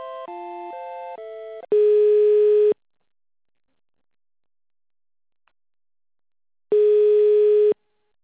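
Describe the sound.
Telephone tones during a call transfer: a quick run of stepped electronic beeps shifting in pitch, then two long steady tones separated by several seconds of silence, with no voices.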